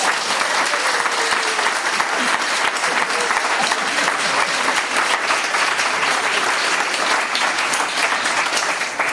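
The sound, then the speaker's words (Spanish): Sustained audience applause honoring an author for a Basque-language edition: a dense, loud, unbroken roar of many hands clapping that holds steady for about nine seconds, tapering slightly only at the very end. “Y eso merece un gran aplauso para Xero.”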